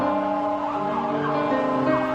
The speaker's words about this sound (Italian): Il suono delle sirene. Forse un'ambulanza, forse i pompieri